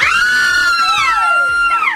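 A loud scream sound effect holds as a shrill, sustained, high-pitched cry, then bends downward near the end before cutting off.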